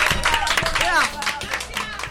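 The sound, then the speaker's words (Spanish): Brief clapping and applause from a small group of school students, quick claps mixed with people talking and calling out, lasting only a couple of seconds. “¡Un aplauso!”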